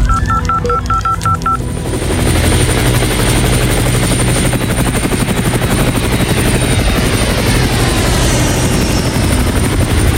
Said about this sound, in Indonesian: Kontak markas besar dan siapkan helikopter sekarang.